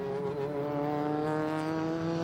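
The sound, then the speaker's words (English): McLaren, Aston Martin and Honda race cars drive into turn one during Michelin Pilot Challenge 2023 practice at the Roar. Their engines make a steady, buzzing tone rich in harmonics that holds for about two seconds, with no voices. “Down into turn one, it is McLaren, Aston Martin and Honda.”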